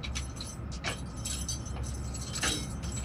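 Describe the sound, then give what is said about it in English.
An officer's keys jangle and clink as he inserts a key into a lock and turns it. A few faint metallic clicks and rattles sound over a low background. “The officer takes out a key, inserts it into the lock and turns it 6 times.”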